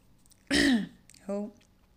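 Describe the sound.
Throat clearing with something stuck in the throat: one rough, harsh rasp, then after a short pause a brief voiced sound, both fairly loud against a quiet background.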